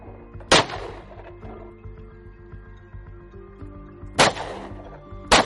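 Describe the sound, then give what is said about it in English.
Three loud, sharp gunshots fired from a gun, with a long gap after the first and the last two close together. A steady tonal background sounds underneath. “Gosh, this thing shoots so much smoother than that last gun.”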